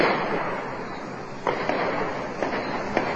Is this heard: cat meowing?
no